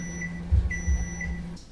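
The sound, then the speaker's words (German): A microwave oven finishes its cycle with a few short, high electronic beeps over a steady hum, broken by soft low thuds. “Nehmen Sie die Box aus der Mikrowelle. Behandeln Sie das heiße Gefäß mit Vorsicht.”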